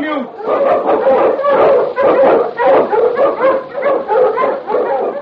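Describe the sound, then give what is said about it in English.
A Malamute sled dog, a strong Eskimo lead dog, barks and yips repeatedly in loud, rapid bursts with a few whimpers, while a voice talks over it. “Malamute! Wonder Dog King, swiftest and strongest of Eskimo lead dogs, blazes the trail through storm and snow for Sergeant Preston as he meets the Challenge of the Yukon.”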